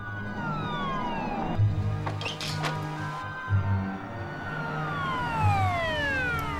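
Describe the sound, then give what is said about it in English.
Wailing sirens of two police cars racing towards a house, loud overlapping sweeping tones that repeatedly glide up and down, with a deep engine rumble beneath. “Next, two police cars scream towards the McAfee house.”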